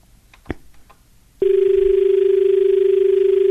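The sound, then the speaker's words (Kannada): A telephone tone sounds after a phone-in caller's line is disconnected. A brief click comes first, then a steady low-pitched tone with a faint ripple starts and holds unbroken to the end. “ಕರೆ ಕಡಿತ ಆಗಿದೆ.”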